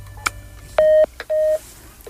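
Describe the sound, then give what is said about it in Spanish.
Telephone keypad tones beep as a radio station dials out to place a call: a short blip, then two sustained, steady tones with a brief click between them, over a low hum. “No nos cuelgues, le estamos marcando, vamos a reconciliarlas.”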